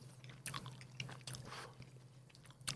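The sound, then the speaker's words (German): Sour apple gummy candies are chewed in soft, wet, squishy bites. There are a few faint crunchy accents within a quiet, steady chewing rhythm, with no talking. “Premium, das sind irgendwelche Apfelgummitiere. Ich zuerst? Ja. Die habe ich auch noch nicht. Oh, die sind sogar sauer.”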